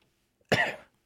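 A single short cough, fairly faint, stands alone against near silence: one sharp burst that fades out quickly.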